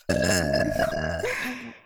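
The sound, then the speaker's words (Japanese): A long, drawn-out voiced burp, loud and croaky with a wavering, grunting quality that trails off into a fading tail. “私たちのゲップで、濃いの出しちゃえ。”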